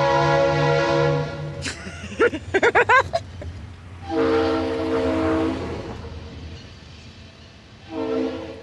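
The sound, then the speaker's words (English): A train rattles past in the distance, its horn sounding in long, steady blasts, with a quick run of high squealing chirps early on and a low rumble underneath throughout. “A train rattles past in the distance.”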